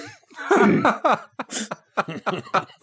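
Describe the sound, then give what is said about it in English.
A man coughs repeatedly, a series of harsh, hacking coughs and throat sounds as if something is stuck in his throat. “He's trying. Something stuck in his deep throat. Deep breath, man. Keep it together.”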